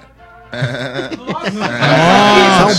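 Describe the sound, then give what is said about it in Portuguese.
A billy goat bleats: rough, grunting noises build into a loud, quavering bleat that holds and wavers toward the end. “É um bode.”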